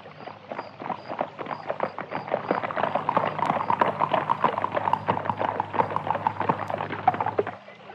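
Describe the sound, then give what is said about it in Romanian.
Hooves clip-clop at a fast gallop as a horse-drawn carriage rushes along, a dense, rapid, steady rhythm of hoofbeats over a continuous low rumble that drops away near the end. “fata zări gonind năvalnic dintr-un luminiș o caleașcă de poveste.”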